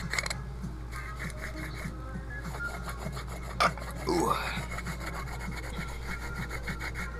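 Rasping grind of a hand herb grinder breaking up cannabis bud, a steady run of many quick scraping strokes at an even, fairly low level, with no voices.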